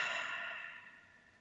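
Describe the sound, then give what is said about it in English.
A deep breath let out during a guided breathing exercise: one soft, airy exhale that starts at moderate strength and slowly fades, quiet and alone with no voices. “Take a good deep breath in and let it out.”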